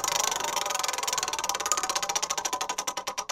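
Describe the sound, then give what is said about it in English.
A spinning prize wheel gives rapid, bright ticking that gradually slows as it loses speed, the clicks spreading farther apart toward the end with no talk. “let's spin the wheel anyway. Give it a spin.”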